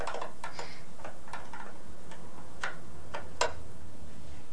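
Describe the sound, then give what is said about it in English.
A screw is tightened, producing a series of sharp, irregularly spaced clicks over a steady background hiss, with no talking. “screw. Right there. That's it. Tighten up good.”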